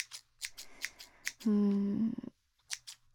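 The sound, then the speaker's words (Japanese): Scissors snipping a junior schoolmate's hair after school: several crisp, quiet snips in an uneven rhythm. A short, steady voiced tone breaks in at the middle. “放課後に後輩の髪を切るっていうのは、”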